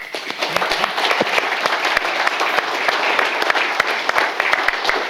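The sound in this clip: Audience applause greets a newspaper motoring correspondent joining a panel, a lively crowd of sharp, crisp claps forming a dense, steady patter throughout.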